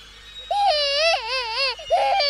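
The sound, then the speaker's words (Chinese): A baby crying in a small room: a few wavering, high wails, each held for a moment before dipping, then a shorter cry rising again. Each cry is clear against a quiet background. “接着我还听到那个小房间里面有一种婴儿的哭声，”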